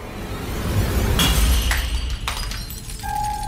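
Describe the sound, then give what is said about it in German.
A small liquid-filled glass flask falls to the floor of a school entrance hall and shatters, giving a few sharp, bright crashes and tinkling fragments over a low rumble, followed by a faint steady tone. “Wie aus dem Nichts fällt in der Eingangshalle ein kleiner, mit Flüssigkeit gefüllter Glaskolben zu Boden und zerschellt.”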